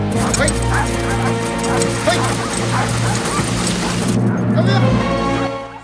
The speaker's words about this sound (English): Now the Eskimos have parked their sleds in the snow and their dogs are resting.